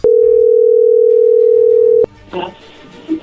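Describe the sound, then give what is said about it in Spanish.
A telephone dial tone hums steady and loud for about two seconds as a call is placed to a woman, then cuts off abruptly. A few faint clicks and a soft burst of line noise follow. “Vamos a marcarle a Guadalupe.”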